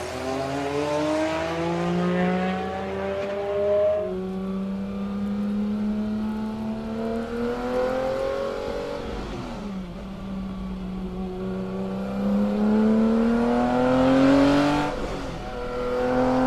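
A car engine revs hard over and over, its whining pitch climbing, dropping back and climbing again in a few long sweeps, loud and steady throughout, with no voices.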